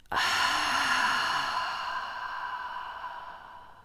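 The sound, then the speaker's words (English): A long breath out during a breathing exercise of inhaling through the nose and exhaling through the mouth: one airy exhale that starts abruptly, then fades slowly over a few seconds, with no talking. “We're going to inhale through the nose and exhale through the mouth. Breathe in and exhale out.”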